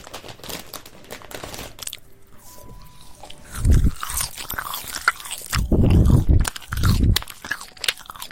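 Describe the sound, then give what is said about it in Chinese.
Eating a marshmallow, heard as a few loud bursts of chewing and mouth sounds separated by quieter stretches with faint, scattered clicks. “吃的棉花糖，吃的是哥哥的棉花糖，好吃。”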